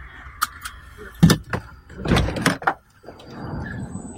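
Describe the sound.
A car door sounds as a person gets out of a vehicle: a few sharp knocks and clunks mixed with rustling, followed by a softer stretch of noise.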